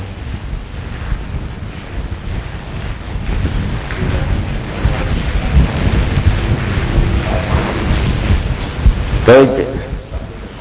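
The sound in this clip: Heavy rain pours in a dense, constant hiss with wind buffeting throughout. A short, sharp knock comes near the end.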